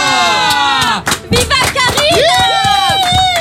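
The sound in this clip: A crowd cheers and shouts a chant to welcome a radio host, with loud, overlapping voices rising in bursts and one sustained shout near the end.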